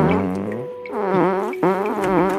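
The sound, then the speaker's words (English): A phone ringtone that sounds like a fart plays as a buzzy, wobbling, low-pitched tone in a few connected bursts, loud and alone with no talk. “His phone's farting.”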